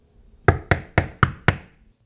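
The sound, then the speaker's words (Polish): Knocking on a door of an inn room: five sharp, loud raps evenly spaced about a quarter second apart, each with a brief ringing decay, with no voices. “Stanął przy drzwiach, przyłożył do nich ucho, a gdy usłyszał jęki, zapukał.”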